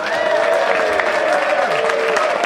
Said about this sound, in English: It would mean more if I hadn't done a special sign to make you applaud.